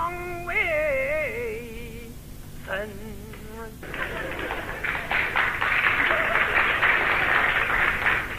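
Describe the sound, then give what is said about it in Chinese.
Scattered applause from a small part of the audience at a comedy stage show. It starts after a brief sung phrase and runs as a steady, moderate crackle to the end. “鼓掌的人不多呀，啊，鼓掌的人都是南方人。”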